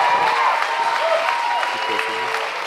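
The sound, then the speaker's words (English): A crowd applauds to welcome a guest speaker to a Christian gathering in Glenwood Springs. The clapping is steady and dense, with a voice speaking over it throughout. “Put your hands together. Give a warm Glenwood Springs welcome to Todd White as he comes.”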